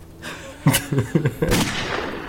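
Gunfire in a shooter video game: a few sharp, punchy shots in quick succession, then a longer, denser burst, over a steady background rumble.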